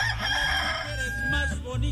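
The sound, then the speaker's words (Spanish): A rooster crows loudly, with a long harmonic call that trails off, heard over a steady low background hum. “Ay, ahí está el gallito, está que canta.”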